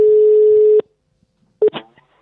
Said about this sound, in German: Dann schnappen wir mal das Telefon und klingeln mal durch.